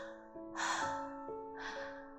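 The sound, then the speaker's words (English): Faint gasping breaths as someone laced too tightly begins breathing again and returns to life: two short, breathy gasps over soft, sustained musical tones. “She began to breathe faintly”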